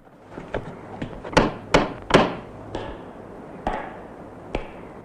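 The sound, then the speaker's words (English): Knocking on a front door, heard as a series of hard wooden knocks: three loudest strikes in quick succession near the middle, with fainter, spaced-out knocks before and after. “He knocks on the door.”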